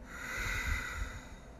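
Ujjayi breath, a sigh with the mouth closed through a slightly constricted throat, makes a steady, soft, oceanic rushing hiss that holds evenly for its whole length.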